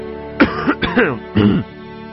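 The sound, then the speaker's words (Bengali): A man's loud, harsh cough clearing his throat, heard as three rough voiced bursts in quick succession, alone without other sounds. “একবার সশব্দে কেশে বেশ জোর গলায় বিপ্লব জিজ্ঞেস করল,”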